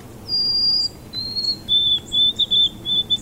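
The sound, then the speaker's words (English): White-throated sparrow song: a long, clear, high whistled note, then a slightly lower held note, followed by a run of lower, wavering repeated notes, alone over a quiet background. “So that's the white-throated sparrow.”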